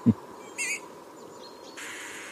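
A finch from a northern population gives a single short, trumpet-like call. It is high-pitched and nasal, rises above a faint background hiss, and is preceded by a low thump.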